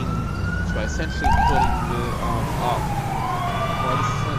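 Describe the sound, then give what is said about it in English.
Police car sirens wail in a video game, loud and continuous, with a wavering tone that sweeps up and down over several seconds. “the sirens are really loud”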